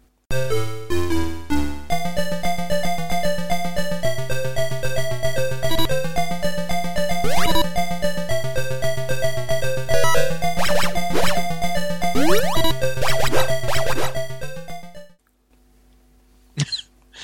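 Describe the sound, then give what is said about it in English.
Music from the 1986 Sega video game Wonder Boy, developed by Escape: a bright, buzzy synthesized melody bounces over a steady pulsing bass line, then cuts off near the end, leaving a short faint tone. “It's called Wonder Boy by Sega, 1986, developed by Escape.”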